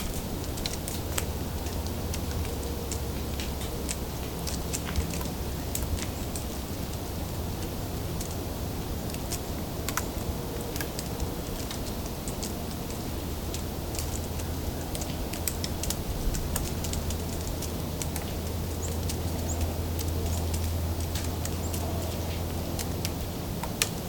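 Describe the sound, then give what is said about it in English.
Many cones being torn apart at once make a dense, steady crackle of countless small sharp clicks and snaps, with no pauses, over a low constant rumble. “They're tearing apart a lot of cones at once.”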